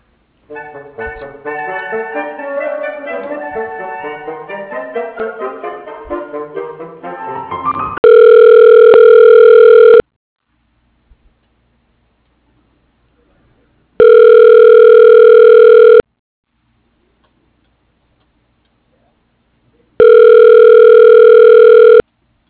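A telephone ringback tone plays while a call is transferred to voicemail. After a busier tonal passage come three loud, steady rings, each about two seconds long, evenly spaced with silence between them.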